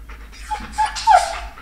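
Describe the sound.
A dog whimpers and pants: a few short, high whines rise over soft, breathy panting, and the last whine is louder than the others.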